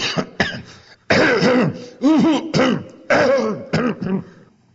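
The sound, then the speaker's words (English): A voice imitates a man's cough with a rough series of short, voiced, throaty bursts in uneven rhythm, some longer and some clipped, fairly loud and with no other sound behind them. “Who used to cough like that?”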